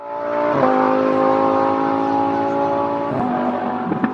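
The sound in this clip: Race cars roar at the Australian Grand Prix: a loud, steady, high-revving engine drone rich in harmonics, with a few abrupt breaks in pitch along the way.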